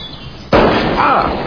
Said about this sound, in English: Japanese, but it's pretty good. Go on, shoot it.